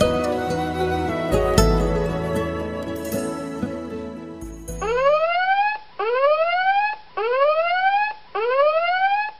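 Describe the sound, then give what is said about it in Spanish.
An alarm sounds as four loud, rising whooping sweeps, each about a second long, repeated in a steady rhythm after a dense, busy stretch of sound. “Esta es una alarma real, una llamada de atención para todos.”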